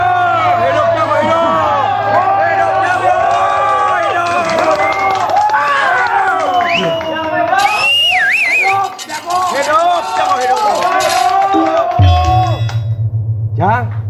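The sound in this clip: A lively crowd shouts and cheers at an arena contest, with many overlapping excited voices and high calls. Underneath runs a steady low hum that shifts to a different pitch near the end.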